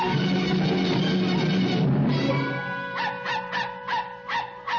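A dog gives a few sharp, high yips in quick succession. They follow a stretch of steady, sustained tonal sound and are moderately loud.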